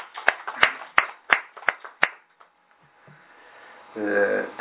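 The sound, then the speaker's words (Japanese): Applause marks a 69th birthday at a Konko faith church service. About six loud, evenly spaced claps ring out, then fall quiet before a voice begins. “盛大な拍手でお祝い”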